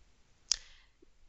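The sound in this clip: A single mouse click on a Sync Now button: one sharp, short tick with a brief fading tail in an otherwise quiet stretch.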